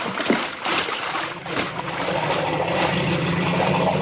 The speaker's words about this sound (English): I'll get the motor and head back downstream.